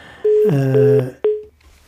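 Telephone line tones as a new caller connects to a call-in line: a steady electronic tone marked by clicks, with a brief voiced sound beneath it, then a short gap and one more clear beep that fades out.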